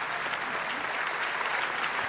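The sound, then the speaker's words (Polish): Audience applause at a music awards gala, a thick, even roar of many hands clapping together, loud and continuous with no voices over it. “Wielkie brawa.”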